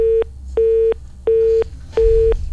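Busy tone on a phone-in line after the call is cut off: four evenly spaced beeps at one steady pitch, each lasting about a third of a second, alone on the line.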